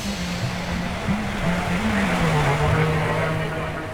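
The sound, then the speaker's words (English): Engine drone of a Mastiff six-wheeled armoured vehicle with a V-shaped hull, driving on the road to Kajaki: a loud, steady rumble with a wavering low tone that holds without a break from start to finish. “I was in a Mastiff six-wheeled vehicle, V-shaped hull, looks like a big sort of metallic version of a hippo, heading to Kajaki.”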